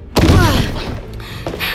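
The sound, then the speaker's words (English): A heavy, dull thud of a person leaping and crashing feet first onto a woman on a linoleum floor, landing in one loud impact that fades, then a softer bump later. “Arms outstretched, I leap, crashing feet first onto her.”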